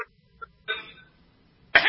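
A man clears his throat in a few short, rough bursts, the last one the loudest and sharpest, with quiet gaps between them and no talking.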